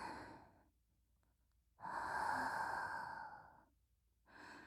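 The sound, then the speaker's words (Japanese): Slow, deep breathing in and out, a long airy inhale and exhale rising and fading between quiet pauses, soft and close, with no talk. “ほら、息を吸って息を吐いて、”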